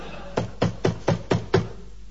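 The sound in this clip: Knocking on a door: six even, dull raps in a quick, steady rhythm, each a short mid-pitched thud, heard alone over a faint background hiss.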